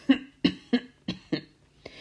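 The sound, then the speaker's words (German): A voice imitates a small goblin-like character in a children's story clearing his throat: six short, rough, voiced bursts in a quick series, the last one fainter. “Dann räusperte er sich und las.”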